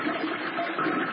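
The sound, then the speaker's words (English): A toilet flushes in a loud, steady gush of rushing water that holds at an even level for about a second. “Hear that? That's the sound of nearly 3 million American jobs being flushed down the toilet.”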